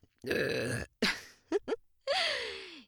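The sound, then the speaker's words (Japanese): A woman burps a few times: a long, deep belch at the start, two short gulping ones in the middle, and another drawn-out belch at the end whose pitch slides downward. There is no talk. “私のゲップがいいの？それとも女のゲップなら何でもいいの？”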